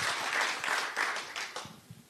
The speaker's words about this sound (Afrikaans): So ons gee vir hom nog 'n handeklap dat hy behoorlik welkom voel.